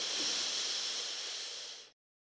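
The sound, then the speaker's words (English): A deep breath drawn in during a guided breathing exercise: one steady, airy inhale that lasts about two seconds and fades slightly before stopping abruptly. There is no talking. “Let's take a nice big deep breath into that.”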